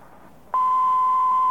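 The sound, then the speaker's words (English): A phone operator's tone on a collect call, prompting the caller to state a name: one loud, steady, mid-pitched electronic beep that starts abruptly after a faint hiss and holds unbroken. “At the tone, please state your name.”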